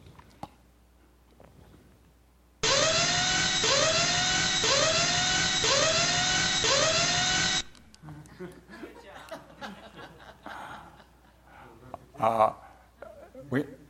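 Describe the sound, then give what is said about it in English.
An angle grinder fitted with a special blade cuts concrete board along a chalk mark, moving backwards: a loud, steady, high whine with a regular pulsing sweep lasts about five seconds, then people talk. “With concrete board, because you don't cut it with a saw, I had an angle grinder with a special blade. You see where we had a chalk mark, and I'm just backing up because I found out it worked better going backwards than forwards.”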